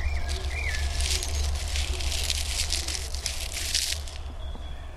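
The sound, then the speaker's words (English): Dry leaves crinkled by hand: a dense, continuous crackling and crunching that runs for about four seconds over a steady low rumble, then stops. “we can continue our ASMR with me crinkling some leaves.”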